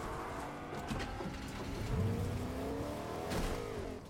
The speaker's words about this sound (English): And we eventually go to drive off, leaving these guys in the dust.